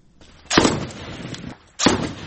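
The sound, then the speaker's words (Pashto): Gunfire in street fighting between security forces and gunmen in Lashkar Gah, Helmand. Two loud, sharp cracks about a second apart each trail off into a short decaying tail over low background noise. “امنیتي سرتیري او وسلوال دیوال په دیوال تر کشونو کې یو پر بل ډزې کوي”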